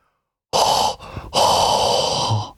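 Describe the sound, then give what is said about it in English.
Forceful hot breath exhaled in two long, loud, breathy rushes, separated by a brief softer breath and pause, with no voice. “Hot breath.”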